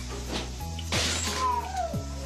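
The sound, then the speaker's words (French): A jar knocked off a shelf falls to the floor and breaks in a single sharp crash with a brief scatter of debris, set against a steady low background. “Alors qu'il est à mi-chemin, un pot tombe soudainement au sol.”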